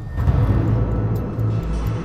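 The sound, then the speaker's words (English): A car's engine rumbles low and steady as the vehicle pulls up outside a house, a continuous deep hum that holds throughout with no clear change in pitch. “Then in a flashback, a car pulls up outside the Braddock house.”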